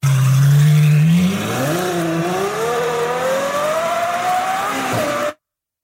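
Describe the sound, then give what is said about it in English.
A Ferrari V12 in an F12 with an aftermarket exhaust holds a low, steady drone, then revs into a rising, loud howl that climbs for about four seconds before cutting off abruptly. “It's a Ferrari V12.”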